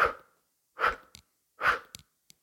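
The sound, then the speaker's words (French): Three breathy exhales through the mouth during a guided breathing exercise, each a loud rushing burst that fades out, separated by short pauses with small clicks between them. “Poumons pleins, placez les bras en chandelier, expire par la bouche.”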